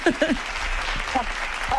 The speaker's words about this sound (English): there'll be cheering inside the doctor's surgery.